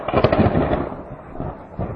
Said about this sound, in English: it's not just rain. That's a thunderstorm. Yeah, it's thunderstorm.